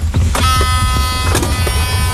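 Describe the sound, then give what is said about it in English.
An electric car passing on an island: a steady electric whine with bright tonal harmonics over a low rumble, continuous and fairly loud for about two seconds. “Electric car.”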